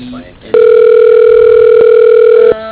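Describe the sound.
A steady telephone line tone plays as a call is transferred: one loud, unbroken electronic tone holds for about two seconds and then cuts off abruptly.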